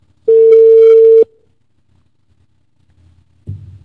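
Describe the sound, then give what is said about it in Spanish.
Ringing tone of an outgoing telephone call: one loud, steady, mid-pitched tone lasting about a second, followed by silence and then a dull low knock. “Está timbrando”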